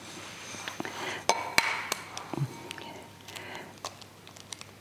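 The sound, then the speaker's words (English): An egg is cracked into a bowl: a few sharp clicks and taps of shell against the rim, then quieter dripping and handling sounds. “But in fact, an egg has three parts. So if I crack it and try not to spill it, let's discuss that a bit.”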